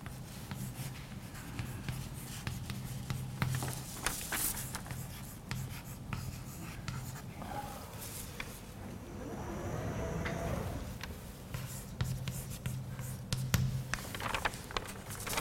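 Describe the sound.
Writing on a board during a German physics lecture on distribution functions: many faint, short scratching strokes in an irregular rhythm, broken by brief pauses.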